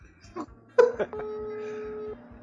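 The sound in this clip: Telephone ringback tone on an unanswered call: one steady, buzzing ring of about a second, after a few short, noisy bursts.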